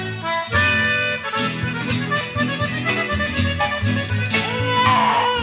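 A newborn baby girl cries loudly and continuously in a strained, wailing cry with few breaks.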